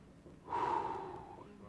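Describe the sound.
A human voice imitates a forceful breath blown out, a single rushing exhale lasting about a second that swells suddenly and then slowly fades, heard alone.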